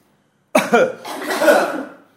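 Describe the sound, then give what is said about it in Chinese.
A group of people coughs together on cue: one short burst of overlapping coughs starts abruptly, swells, and fades within about a second and a half. “大家跟我一起咳嗽一声哈”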